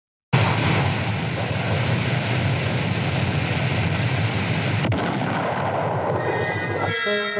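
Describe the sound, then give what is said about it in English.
A continuous, loud, roaring rush from a failed ballistic missile test launch starts abruptly and holds steady with little change, broken only by a brief click partway through. “Instead, they tested yet another ballistic missile. Now, this did not go well.”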